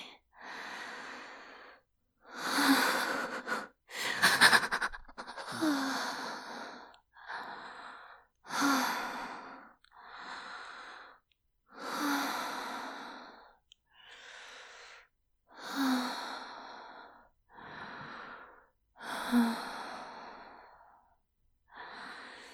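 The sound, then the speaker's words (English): Slow, deep guided breathing, with many long sighing inhales and exhales in a steady, unhurried rhythm, some with a slight snorting or wheezy edge, all heard alone without talk. “Now just breathe with me.”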